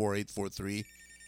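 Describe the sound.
Telephone ringing on a request line: three short, bright, warbling ring bursts in quick succession, then a faint, steady lingering tone.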